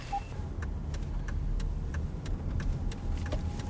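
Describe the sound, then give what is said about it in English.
A car fitted with left-sided hand controls drives along with a steady low engine and road rumble, while faint regular ticking sounds over it and no one talks. “And now we're just driving like normal.”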